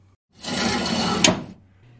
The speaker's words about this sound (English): Close the drawer.